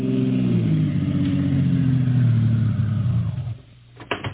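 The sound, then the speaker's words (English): A taxi cab's engine drones steadily as it drives, then drops away toward the end as the cab pulls up in front of an all-night diner in a warehouse district; a short clatter follows. “Steve is on his way to the south side of Big Town in the cab of Harry the Hack and pulls up in front of an all-night diner in the warehouse district.”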